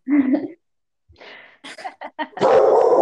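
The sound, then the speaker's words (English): A pet dog barks in the background at home: several short barks and yips in quick bursts, ending in a louder, sustained outburst, with some talk mixed in. “that's my dog barking in the background.”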